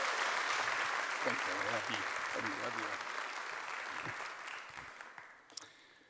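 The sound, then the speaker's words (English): A church audience applauds to welcome Pastor Toby Slough. Dense, fairly faint clapping starts full, with a voice briefly audible through it, then gradually thins out and fades. “Would you just do me a favor, Faith Promise, lean in, put your hands together right now, and welcome Pastor Toby up here.”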